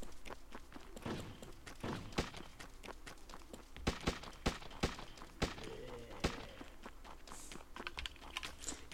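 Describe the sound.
Footsteps of an approaching player, a slow-moving zombie in a video game, come as many faint, irregular soft thuds mixed with a few sharper thumps over low background noise.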